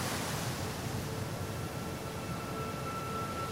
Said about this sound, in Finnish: Heti kun yritän pistää vastaan, mainingit heittävät vettä naamalleni.